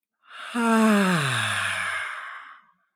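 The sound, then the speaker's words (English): A long exhalation through the mouth during a guided breathing exercise, voiced as a sighing 'ah'. Its pitch falls steadily over about two seconds before it trails off into silence. “inhaling all the way into your belly. As you exhale through the mouth,”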